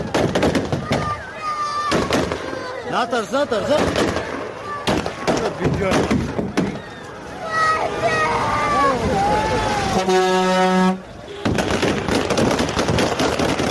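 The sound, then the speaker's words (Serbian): Gunfire and a panicked crowd at Kabul airport: sharp cracking shots burst out repeatedly amid loud, overlapping shouting voices, with a reporter speaking over the chaos. “Danas je također zabilježena pucnjava na aerodromu u Kabulu i panični pokušaj ljudi da”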